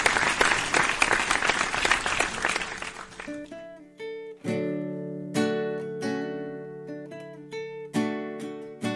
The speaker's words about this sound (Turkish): sadece alkışlıyoruz. Dostlar siz de alkışlar mısınız orada?